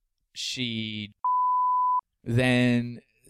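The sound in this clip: A single steady censor bleep, a pure mid-pitched tone lasting under a second, sits in a short gap between stretches of talk, with voices just before and after it.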